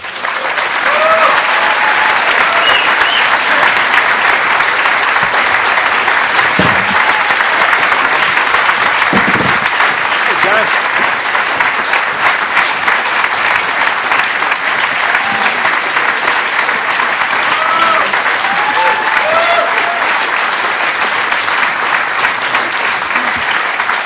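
Loud applause from an audience at an evening event welcoming four guests, a thick, unbroken roar of clapping that stays steady and strong for over twenty seconds with no voices standing out.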